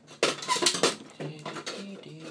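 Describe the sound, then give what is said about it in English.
Kitchen utensils clatter as someone rummages for a silicone spatula: a burst of clinks and knocks, loudest at the start, then softer, uneven rattling. “So what I'm going to do is find a, I think a spoon or silicone spatula. Let's see if I can find my silicone spatula.”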